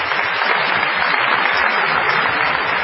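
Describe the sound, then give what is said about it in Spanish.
Group applause celebrating someone's 80th birthday, dense, steady clapping that runs evenly through the whole clip. “Y vamos a aplaudir.”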